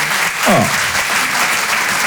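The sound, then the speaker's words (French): Applause from a comedy-show audience for a couple married 51 years, a loud, steady patter of many hands clapping that runs through the whole moment without a break. “Oh, on peut les applaudir. 51, c'est beau ça, waouh.”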